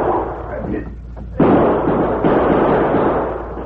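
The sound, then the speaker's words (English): Two loud gunshot bangs from a Western shootout at the corner of a building, fired by two crooks. They come sharply in quick succession after muffled voices, and each blast leaves a lingering broad rumble. “The Lone Ranger and Tonto were partially protected by the corner of the building as the bullets from Sleepy and Max's guns whined toward them.”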